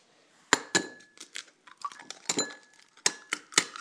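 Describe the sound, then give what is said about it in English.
Eggs crack against a bowl that holds milk: a quick, irregular series of sharp taps and clicky knocks, with faint clinks between them and no talk. “I'm going to crack the rest of those eggs in and beat that in with the cream and the milk”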